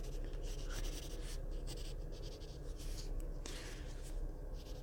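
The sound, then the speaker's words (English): A pencil draws on paper with soft, steady scratching and rubbing strokes. The sound is faint and continuous, with no talk. “I'm taking the time to draw your lovely self.”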